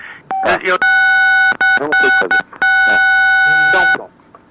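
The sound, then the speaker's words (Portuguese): Loud electronic beeping on a landline phone call: long, steady, buzzy tones broken into a few segments, with a voice speaking in the gaps between them and over them. “Não, ele é do século passado mesmo, ele tá com... Ele tá dando bip assim, ninguém tá conseguindo te ouvir”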